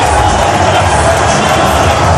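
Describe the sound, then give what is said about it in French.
Rugby crowd at the Ernest-Wallon stadium roaring and cheering after a Pro D2 final, a loud, dense, unbroken wall of massed voices with no pause. “Le public d'Ernest Vallon qui exulte”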